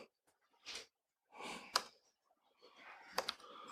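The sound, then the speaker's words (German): Someone types a command line on a computer keyboard: faint, sparse keystrokes come in a few short bursts separated by quiet gaps. “Da, ich schreibe einfach mal die Kommandozeile hin und zeige dann, was dann passiert.”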